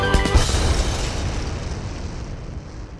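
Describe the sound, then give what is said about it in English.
A piano explodes in a story sound effect, starting with a loud booming burst that dissolves into a long, rumbling, gradually fading roar. “he played so well and so fast and so hard that the piano exploded.”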